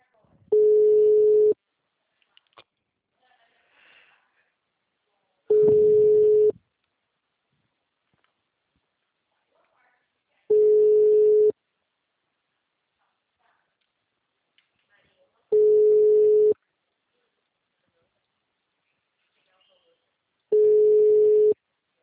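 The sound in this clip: Ringback tones sound as telephone calls are dialled: five steady, low-pitched beeps, each about a second long, evenly spaced with long silent gaps between them.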